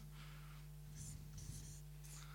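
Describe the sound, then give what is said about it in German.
Faint scratchy strokes of writing on a board, a few short bursts over a steady low hum. “Ich schreibe das kurz hier an.”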